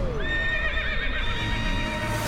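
A horse neighs in a radio ad for a horse race: one long, loud whinny with wavering, bright harmonics that slide downward over a steady noisy bed.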